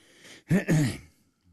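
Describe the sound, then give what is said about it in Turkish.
A person's throat-clearing cough: one rough, voiced burst in two quick pulses. It is fairly loud and stands alone, with quiet before and after. “Bendenizin zaman içindeki öksürüklerinin sizleri ne kadar rahatsız ettiğimin farkındayım.”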